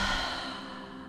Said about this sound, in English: Take another inhale through the nose and simply empty out through the mouth.